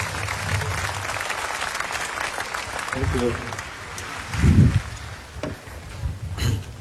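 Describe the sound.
An audience gives warm applause to welcome an author, a steady spread of clapping with a brief voice heard partway through and a few louder swells near the end.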